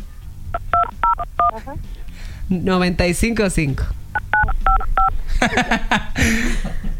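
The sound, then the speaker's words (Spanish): Touch-tone beeps ring out as a telephone number is dialed, two quick runs of several short pitched tones each, with people talking between and over them. “aquí escuchamos que lo acabas de marcar, pero no pasa nada.”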